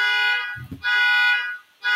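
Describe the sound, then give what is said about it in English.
A neighbour's car alarm sounds as a loud, steady electronic tone rich in harmonics. It drops out briefly twice before resuming. “so mad my neighbor's car alarm just went off”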